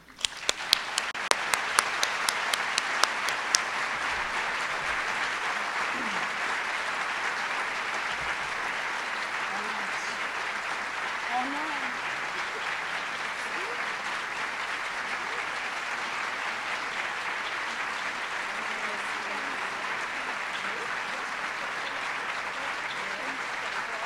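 An audience at an awards ceremony for teaching prizes applauds while a scholarship recipient is welcomed onstage. The applause is long and steady, a dense wash of clapping that opens with a few sharper, louder claps before settling into an even roar.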